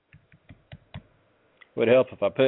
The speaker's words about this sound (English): I can't type today. All right, now we're getting somewhere.